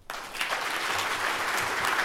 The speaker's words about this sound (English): Brown did the honors of cutting the ribbon to a resounding applause.